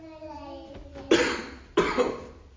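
Two sharp coughs come from a person with something suddenly caught in their throat, loud bursts about a second apart, following a softer voiced sound.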